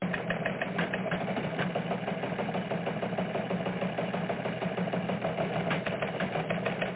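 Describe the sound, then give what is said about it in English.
A teletype machine prints news with a rapid, continuous mechanical clatter, a dense even rhythm of tiny strikes that holds steady for about seven seconds with no talk over it. “let's race down to teletype and see what's happening.”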